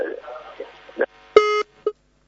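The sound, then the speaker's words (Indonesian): Telephone disconnect tone after a call is cut off. Brief talk comes first, then a sustained electronic beep and a shorter final beep. “Masya Allah, terputus sambungan teleponnya.”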